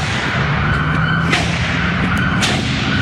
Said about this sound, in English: a man arrived in a pickup truck outside the synagogue and opened fire on a police officer who was stationed outside. This video was recorded by a resident from an adjacent street.